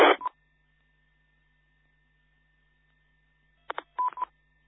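Telephone dialing tones as a caller is connected: a brief burst of tone at the start, then near-silence with a faint hum, then a quick cluster of several short dialing beeps near the end.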